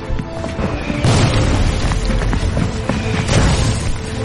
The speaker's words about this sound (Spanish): Corren a través del bosque hacia la línea de combate del batallón. La artillería alemana explota por todas partes.